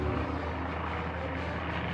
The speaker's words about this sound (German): Ein bekannter Druck in der Magengegend sagt mir, dass das Flugzeug an Höhe verliert.